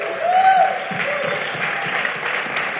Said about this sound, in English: And so I want you to welcome my wife once again. Give her a good hand.